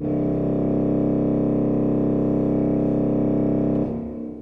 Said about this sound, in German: Und ich habe eins, das klingt jetzt laut, aber genauso tief.